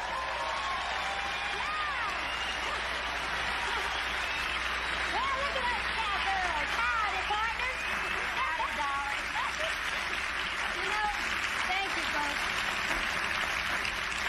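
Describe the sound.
Sustained audience applause welcoming Linda Ronstadt and Emmylou Harris on stage, an even, continuous patter of clapping lasting throughout with voices mixed in.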